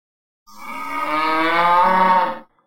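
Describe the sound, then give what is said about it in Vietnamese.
A bull water buffalo bellows in one loud, sustained, deep call with strong harmonics, lasting about two seconds before cutting off. “Đột nhiên tiếng kêu của một con trâu mộng truyền đến.”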